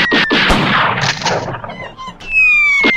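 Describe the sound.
Video game gunfire: sharp synthetic shots break through a loud, dense electronic din laced with thin whining tones, with a bright whistling sweep toward the end.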